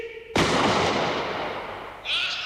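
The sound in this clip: A single loud rifle shot cracks out suddenly, then fades in a long, rumbling tail.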